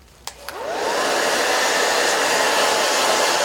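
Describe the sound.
Two sharp clicks come before a hair dryer spins up with a rising whine into a loud, steady rushing blow of heated air for drying hair, with no voices.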